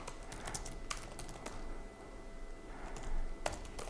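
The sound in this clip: Faint typing on a computer keyboard while someone writes a code test for a stack, with sparse, irregular key clicks and a few sharper taps over quiet background hiss.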